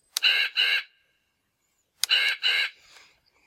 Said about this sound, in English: It is actually the Treehouse of Horror number one playset from The Simpsons, and that's the Raven calling.